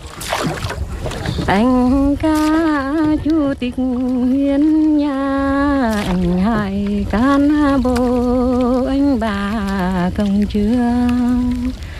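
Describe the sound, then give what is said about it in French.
A woman sings alone from a rowing boat on a lake, a loud, continuous melodic line of held, wavering notes with short pauses between phrases. “je voulais absolument qu'elle chantât dans une barque, de façon à être isolée au point de vue des sons du village. Alors elle a fini par accepter et elle chantait sur le lac.”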